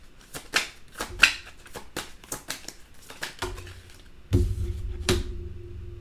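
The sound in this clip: A tarot deck is shuffled and cards are drawn, giving many quick, crisp flicks and slaps in an uneven rhythm. Heavier low handling sounds come in toward the end.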